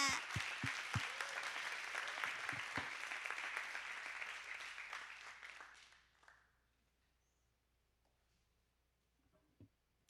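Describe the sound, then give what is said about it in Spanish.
A church audience applauds with dense, steady clapping for about six seconds. The applause then fades quickly to near silence, and one faint knock follows near the end. “si se lo van a dar a Dios, désenlo fuerte, porque si viene ahorita va a encontrar un aplauso muy...”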